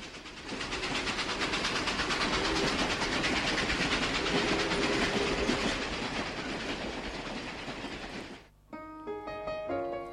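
Train carriage rolling on rails, a loud, steady rumbling rush with faint rhythmic clatter that drops away near the end as music begins.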